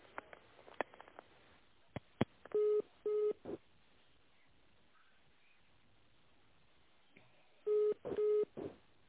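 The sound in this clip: Telephone tones sound while a call is being connected: faint clicks, then two short, steady beeps, a long quiet gap, and another pair of identical beeps.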